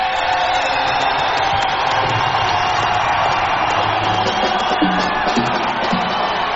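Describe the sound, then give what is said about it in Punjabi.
A dense, loud crowd roars with cheering, whoops and clapping as an audience at a song performance cheers for their villages, a steady, unbroken wall of noise from start to finish. “ਫਿਰ ਇਹ ਤਾਂ ਤਾੜੀ ਹੋ ਗਈ ਗਾਣੇ ਲਈ ਇੱਕ ਆਪਣੇ ਆਪਣੇ ਪਿੰਡ ਲਈ ਵੀ ਤਾੜੀ ਮਾਰ ਲਓ”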